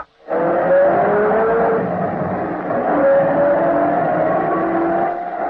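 Steady car engine noise as the car drives off, starting abruptly and then running loud and even for several seconds with a droning, slightly shifting tone. No voices are heard.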